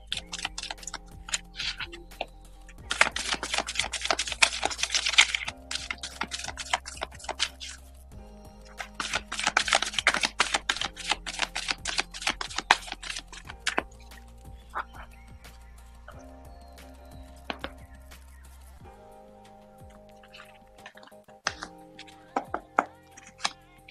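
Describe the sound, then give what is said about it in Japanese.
Tarot cards being shuffled, with two long bursts of rapid riffling clicks followed by scattered softer taps and flicks. “それでは今日のカードリーディングやっていきましょう。カードをシャッフルしていきます。少々お待ちください。”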